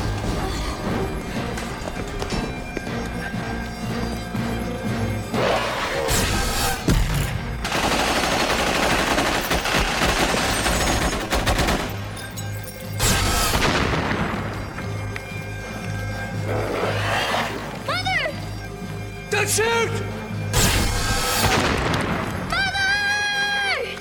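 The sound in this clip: Gunfire crackles in bursts, several long, noisy volleys breaking over a steady tonal backdrop, with voices talking between and under the shots.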